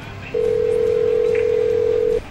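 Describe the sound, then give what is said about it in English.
Phone ringing on an incoming internet call: one long, steady electronic tone at a single pitch lasting about two seconds, over faint background noise. “Oh my god, it's ringing! Ah! It can't be!”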